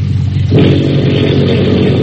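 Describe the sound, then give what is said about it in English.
Torpedo boat engines roar as their mufflers are opened, a loud, harsh mechanical drone that jumps sharply in loudness and brightness early on, then holds steady and powerful to the end. “Signal engine room to open mufflers.”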